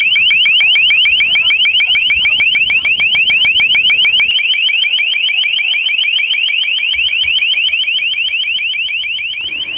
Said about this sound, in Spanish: Este cañón, que puede llevarse entre unos 3 agentes o instalarse en el techo de un vehículo, emite a un volumen máximo de 137 decibelios o bien mensajes o un sonido de alarma como este.